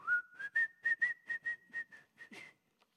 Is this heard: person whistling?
yes